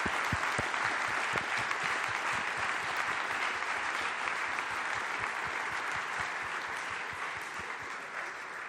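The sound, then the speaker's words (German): Audience applause, many hands clapping in a dense, steady clatter that stays loud throughout and eases slightly toward the end. “Gebt mal einen großen Applaus, weil ich finde, die hat wirklich super übersetzt.”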